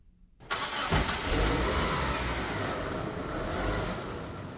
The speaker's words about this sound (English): As Sam is driving us through the city, cars are doing crazy moves to get home faster.